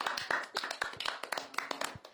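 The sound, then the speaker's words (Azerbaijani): An audience claps for themselves in quiet, irregular bursts, with individual hand claps standing out crisply against little else. “Aferin sizə, özünüzü alqışlayın.”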